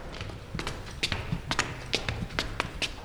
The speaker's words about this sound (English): We've got a little bit of a walk ahead of us as we weave in and out of the building, but I'll take you down to the sculpture studios.